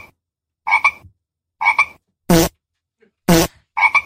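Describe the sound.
Toads croak in short, separate calls: a few trilled, buzzy croaks alternate with two harsher rasping bursts, each followed by a brief silence.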